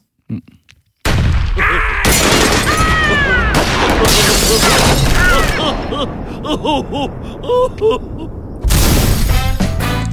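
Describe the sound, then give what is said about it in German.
An intro jingle opens after about a second of near silence with loud crashing, booming hits and bright sweeping tones, then thins to scattered tonal blips before a final loud burst. “dann mache ich doch mal den Jingle”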